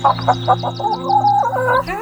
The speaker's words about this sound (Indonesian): Dia sangat heran dan takjub melihat ayam jago yang bisa naik di atas pagar.